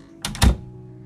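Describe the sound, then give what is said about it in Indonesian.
A door being shut, heard as a short sharp click and then a dull low thud in quick succession, with quiet around it. “Ya, yuk tutup pintunya. Sekarang tutup pintunya.”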